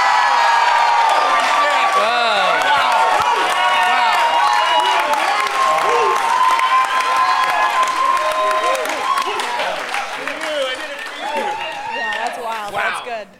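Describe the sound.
An audience cheers after a correct answer in a film quiz game: loud crowd yells, whoops and clapping with voices mixed in, steady at first and then tapering off toward the end.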